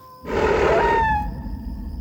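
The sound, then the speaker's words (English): A coyote calls at night, a single drawn-out tonal howl lasting about a second, rising over a low, constant background rumble. “Is that a coyote? Yep. Man, he better keep quiet.”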